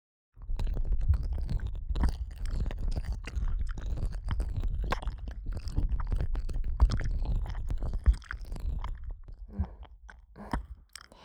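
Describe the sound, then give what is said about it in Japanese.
ASMR tongue licking and moving in and out of an ear, heard as close, wet, squelchy slurps and smacks repeating in an uneven, continuous stream for several seconds, with no talking. “舌を出し入れする音しっかり聞いてね。”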